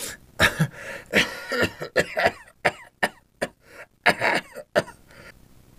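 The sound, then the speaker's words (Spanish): Coughing and throat clearing from someone with a cold and congestion: a long, irregular run of many sharp, harsh bursts with brief gaps between them. The sounds stop, leaving near silence at the end. “Me agarró una tos y un catarro después del aguacero de anoche.”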